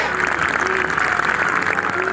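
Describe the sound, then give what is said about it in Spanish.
Applause at a rally for the Argentine activist Santiago Maldonado. Steady clapping blends with a crowd of voices in a continuous, fairly loud wash. “Esos aplausos y abrazos extendidos eran para Sergio Maldonado, el hermano de Santiago Maldonado”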